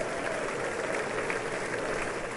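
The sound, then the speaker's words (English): Crowd cheering and applauding at a political event as Paul Ryan comes up to the dais with Mike Pence nearby: a dense, steady wash of clapping and cheers that holds at an even level throughout. “Still cheering.”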